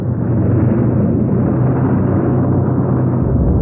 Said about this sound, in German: Ice und Sun mit ihrer Sonde dem Wrack entkommen, erfolgt eine ungeheure Explosion